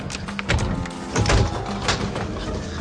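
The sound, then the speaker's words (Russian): A door being opened: a few clattering, rattling bursts that rise and settle, moderately loud, with no voices. “Сейчас открываю! Открываем дверь! Да, я открываю!”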